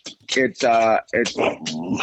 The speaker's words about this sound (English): Out you go. You can't come in if you're going to be barking.